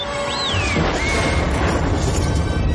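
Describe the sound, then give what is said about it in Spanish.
A sci-fi film sound effect of a sail barge spaceship exploding to pieces above desert dunes: a high whistling tone swoops downward, then a loud, sustained crash and rumble fills the remainder. “La nave de Java explota en pedazos.”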